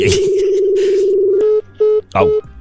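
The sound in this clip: Telephone tones from an outgoing call being dialed: a steady low tone holds for over a second, then breaks into a few short tone bursts, with voices and other sounds over it.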